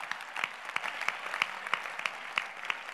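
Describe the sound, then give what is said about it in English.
An audience claps during a sermon, a continuous wash of fairly quiet applause with sharper individual claps poking out at an uneven pace. “You should clap your hands for that.”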